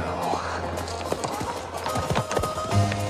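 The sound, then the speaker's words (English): Hoofbeats of a posse of horses galloping, many quick overlapping thuds and clops in a loose, driving rhythm, fairly loud throughout. “He sees a posse galloping towards him.”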